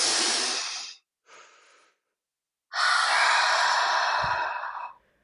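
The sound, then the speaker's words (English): A big deep breath in and out, taken as a relaxation breathing exercise: a breathy rush, a short quieter breath, a pause, then a long, loud, steady exhale that fades away. “We should have done one of those big deep breaths at the start of this episode. We should do one now.”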